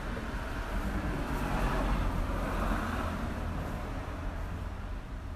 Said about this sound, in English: Why is there someone driving down the street?